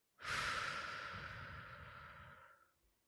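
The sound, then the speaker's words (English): A single long, deep breath, heard as a loud, airy rush that holds steady for over two seconds and then fades out, with no voices. “we'd like to invite you to drop in and take a breath with us. Inhale. Exhale.”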